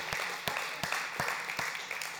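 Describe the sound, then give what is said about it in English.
An audience gives a round of applause, a steady wash of clapping marked by regularly spaced sharper, louder claps. “could you just join me in just giving these guys a round of applause and appreciation?”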